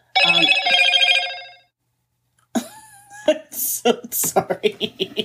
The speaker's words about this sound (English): Sorry. That was my phone, which I thought was do not disturb.